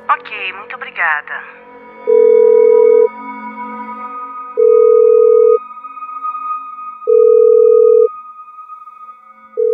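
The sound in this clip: A hotel telephone line sounds its tone while a call is transferred: three steady, mid-pitched one-second tones separated by pauses, and a fourth just starting at the end, after a brief voice at the start.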